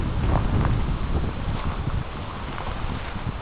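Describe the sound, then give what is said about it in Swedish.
Strong wind buffets the microphone with a loud, continuous, low rumbling roar that surges slightly and never drops away. “här kan man ju snacka om stormvindar, det blir ganska högt upp också”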